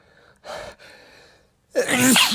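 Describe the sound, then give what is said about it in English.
A man sneezes once, loud and explosive, after two softer breathy intakes with a short pause between them. “Sometimes when I sneeze, I have to look at the light.”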